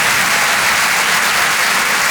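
Audience applause at a comedy show: a dense, steady wash of clapping that stays loud and even from start to finish, with no voices standing out.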